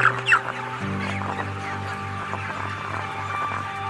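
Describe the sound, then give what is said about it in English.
A factory-farmed, cage-free chicken that cannot get up, suffering respiratory distress, clucks and squawks in short irregular bursts over a steady low drone. “You run into a lot of these that can't get up. You can hear respiratory in this one really bad. Can you hear it?”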